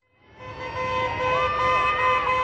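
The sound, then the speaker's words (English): Car horns blare at Greek election night celebrations in Athens. Several steady, overlapping horn tones swell up from quiet and hold loudly to the end. “New Democracy supporters blared car horns and waved blue and white party flags, while fireworks exploded under a full moon.”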